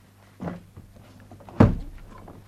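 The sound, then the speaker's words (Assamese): A door is opened with two dull thuds: a softer knock first, then about a second later a louder, sharper thump that fades quickly. No voices are heard. “দুৱাৰখন খোল।”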